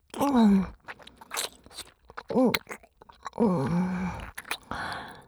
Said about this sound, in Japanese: せっかくやから、このまま飲み込んじゃうね。まずはしっかり咀嚼して